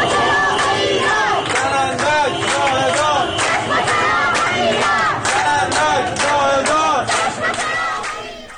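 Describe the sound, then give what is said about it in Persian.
A group of protesters in Ahvaz, Iran, chants slogans in loud unison, with the voices rising and falling in repeated rhythmic phrases before fading slightly at the very end. “این صدای گروهی از معترضان در اهواز است.”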